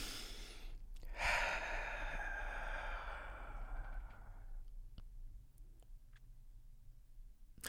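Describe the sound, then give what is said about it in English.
An inhale and exhale during a guided breathing exercise, heard as one long soft airy rush lasting a few seconds, followed by quiet with a few faint clicks. “So inhale again and exhale.”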